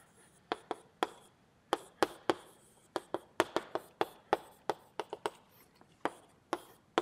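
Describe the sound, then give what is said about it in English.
Writing on a board makes many sharp, faint taps and short scratches in an irregular, halting rhythm. “Let me write it.”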